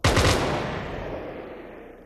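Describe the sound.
A firing squad fires one loud, sharp volley at the execution of a Vendée general. The crack trails off into a long, rolling, fading echo.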